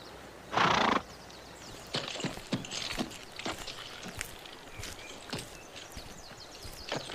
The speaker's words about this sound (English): Magog watched as Al-Jarell rode off into the forest, scratching his head and seeming a bit confused.